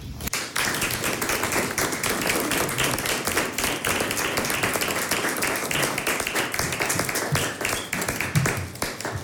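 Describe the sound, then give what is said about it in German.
A concert audience applauds a trio's performance at a villa, with dense, continuous clapping that holds loud and even throughout and has no voices over it. “Da ist ein Ausschnitt. Applaus.”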